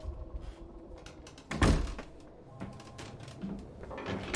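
A locked door is tried, giving one dull, heavy thunk as it catches and holds, followed by faint shuffling and handling noises.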